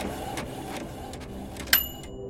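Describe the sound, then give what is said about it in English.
A 3D printer aboard the International Space Station runs with a steady, low mechanical whir, broken by a sharp click near the end that leaves thin, high ringing tones behind it. “So far, we have learned how to make things in space by using a 3D printer aboard the International Space Station.”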